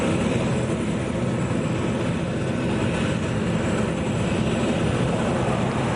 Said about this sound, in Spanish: Pongamos un avión que aterriza después de un largo vuelo transoceánico.